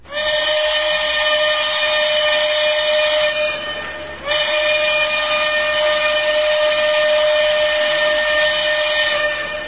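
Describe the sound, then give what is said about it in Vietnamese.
A steam train blows its whistle as people crowd to buy tickets: a loud, sustained, steady-pitched shriek with a brief break near the middle before the blast resumes. “Xe lửa thổi súp lê vang rân, người ta lại càng lấn nhau hơn nữa.”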